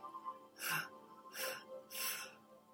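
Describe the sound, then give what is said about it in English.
Slow exhalations during a guided relaxation breathing exercise: three soft, airy bursts of breath, each lasting under half a second, separated by short pauses, with no voices. “Hold for four. Exhale and relax all of your body.”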